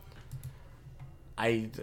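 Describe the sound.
Computer keyboard typing and mouse clicking while someone looks up a name: a few quick, light clicks and taps, followed by a voice speaking briefly near the end.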